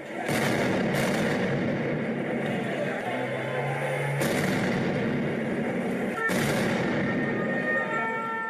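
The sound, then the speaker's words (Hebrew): Anti-government protest in Piazza della Repubblica, central Rome: a continuous, dense roar of crowd noise broken by several sharp, loud bangs. “כדי להפגין נגד מה שהם מכנים ממשלת הדיקטטורה ונגד ההגבלות החדשות שראש הממשלה ג'וזפה קונטה אמור לפרסם הערב. וכך נשמעה אתמול כיכר רפובליקה במרכז רומא.”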